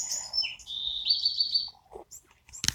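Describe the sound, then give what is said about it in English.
Quail chicks chirp in high, thin whistling peeps, with one long sustained call in the middle. A few short chirps and a brief sharp noise follow at the end. “So, it's been great seeing the quail chicks.”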